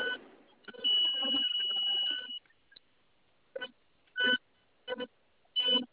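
Electronic beep tones from a radio as a button is pressed: one long, steady tonal burst, then several short, sharp beeps after a pause.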